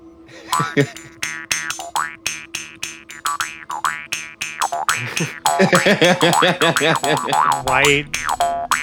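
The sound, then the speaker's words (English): A Jew's harp twangs in a rhythmic run of many plucked, springy boings, with the plucks growing denser and louder over the second half. “I need to grab the other Jew's harp. Alright, here we go.”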